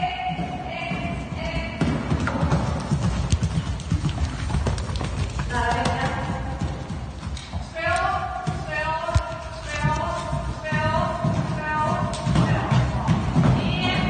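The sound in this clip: Hooves of a horse galloping and jumping an eight-obstacle pay-and-jump show-jumping course at a riding school, with steady rhythmic thudding and occasional heavier thumps. People talk throughout.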